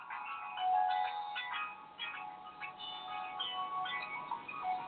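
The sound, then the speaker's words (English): A phone ringtone plays a repeating melodic electronic tune at moderate level with no talk over it. “That's my phone. Stand by.”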